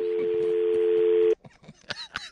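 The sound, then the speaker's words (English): A telephone being dialed: a loud, steady dial tone holds for just over a second, then cuts off abruptly, followed by a few short, fainter clicks and tones. “It's a newfangled contraption called a phone.”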